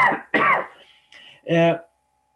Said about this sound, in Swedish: ursäkta jag hosta